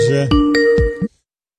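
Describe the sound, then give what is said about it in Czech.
Skype incoming-call ringtone: a quick melodic run of bright electronic tones, several short notes over a warbling lower tone, cutting off abruptly after about a second. “Volá posluchač po Skypeu, ale volá prvně,”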